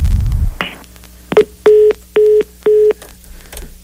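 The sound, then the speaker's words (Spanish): Telephone line tones sound as a call drops: a short blip, then three steady electronic beeps at the same pitch, evenly spaced, after a brief low rumble at the start. “Creo que se nos cortó la llamada.”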